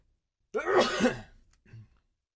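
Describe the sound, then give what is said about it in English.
A single sneeze breaks out sharply from silence and holds briefly as a strong, breathy burst. A fainter, shorter sound follows, then quiet. “Excuse me, that was a sneeze.”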